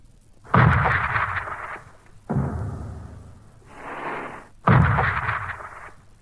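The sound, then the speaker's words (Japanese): Three heavy booms of naval gunfire bombarding the coast ahead of a US landing, each a deep blast followed by a long rolling rumble, with a softer surge of rumble between the second and third. “私は大地を揺るがすような艦砲射撃の音で目を覚ましました。”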